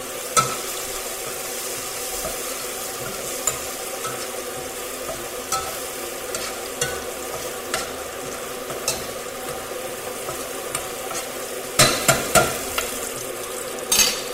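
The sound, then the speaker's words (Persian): Onions with turmeric are sautéed in a pan: a steady sizzle with intermittent scraping and stirring clicks, and a few sharper clatters near the end, with no talk. “باز تفت میدم.”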